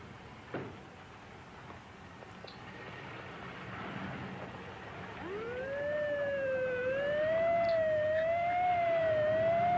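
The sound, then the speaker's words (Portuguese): An ambulance siren in a 1977 film scene wails in a smooth, wavering tone that enters partway through and grows louder, over a steady low background hiss. “Que sirene chata dessa ambulância.”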